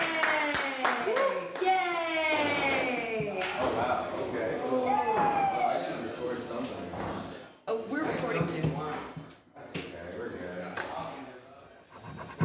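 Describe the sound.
An audience applauds for a comedian, with clapping mixed with cheering and voices that continues for several seconds, easing briefly before picking up again.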